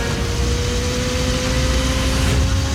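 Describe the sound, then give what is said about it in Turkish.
SWAT motorcycles approach with a steady, loud, low engine drone and rumble that holds level throughout, with no other sounds standing out. “Bir sorunumuz var. Ne görüyorsun? SWAT motosikletleri.”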